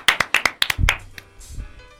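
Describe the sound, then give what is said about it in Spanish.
A round of applause for someone: about eight sharp handclaps come in quick, slightly uneven succession, then give way to faint low thumps and rustle. “Un aplauso para Juana. Un aplauso para Juana, una ídola,”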